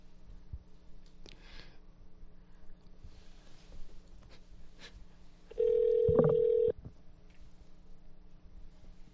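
A telephone call is placed: one steady ring tone lasts about a second, standing out from low background noise and faint scattered clicks.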